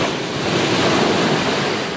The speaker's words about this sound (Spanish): permiten observar muy de cerca la fuerza de las olas rompiendo contra las rocas.